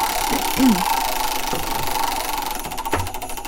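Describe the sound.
Prize wheel spinning during a Christmas-themed game, giving a steady, fast rattling clatter for the full few seconds, with a voice briefly heard over it.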